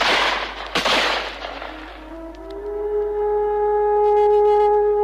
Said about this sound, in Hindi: कप्तान के मरते ही वृद्ध पर गोलियों की बौछार हुई।